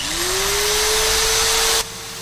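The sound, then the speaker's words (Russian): An electric drill whirs as its bit scrapes against a bound person's knee in a garage, a loud steady motor whine that rises briefly in pitch as it spins up, then cuts out abruptly near the end. “Стал брыкаться связанный, чувствуя, что сверло начинает царапать колено.”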